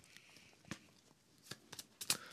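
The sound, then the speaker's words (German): Playing cards being shuffled during a card game: faint, quick papery clicks and snaps come in a few irregular bursts, growing slightly denser toward the end. “er mischt wieder die Karten”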